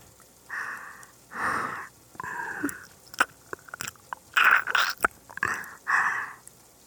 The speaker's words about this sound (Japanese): ちょっと塩味が効いててジューシー。他のところも味見をさせて。